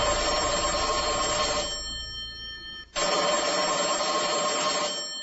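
A telephone rings on an outgoing call: two long ring bursts separated by a short pause, loud and even, with no voices.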